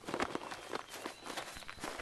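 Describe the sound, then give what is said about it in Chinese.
Hurried footsteps of people arriving at a small vegetable garden: many quick, evenly spaced steps at a moderate level, with no voices. “忽然耳边响起了急促的脚步声。”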